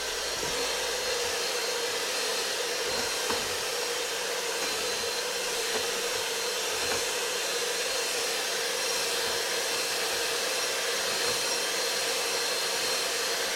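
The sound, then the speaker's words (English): An electric mixer whisks four eggs for muffin batter, a steady, loud whirring motor drone that runs unbroken from start to finish with no talking. “so we've got four eggs are going in and being whisked right now.”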